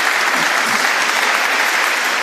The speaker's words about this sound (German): Ich glaube, das ist nochmal ein Applaus an dieser Stelle.